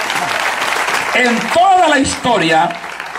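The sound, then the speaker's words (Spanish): A church audience applauds, a broad wash of clapping that runs throughout. Partway in, a voice rises over the clapping and carries on to the end. “Fuerte ese aplauso para Él.”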